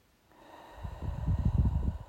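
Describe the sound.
A deep breath drawn in during a guided relaxation exercise, breathy and slightly snort-like, swelling steadily louder over about two seconds, with no talk.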